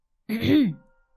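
A man clears his throat once in a single short, voiced, rasping burst of about half a second, heard alone with no talk.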